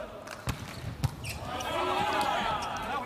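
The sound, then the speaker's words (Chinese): A volleyball bounced before a serve by the German team's outside hitter in a match against China: two sharp thumps, followed by rising crowd noise, with a voice talking over it. “66号德国队的主攻手勒尔斯率先来发球。”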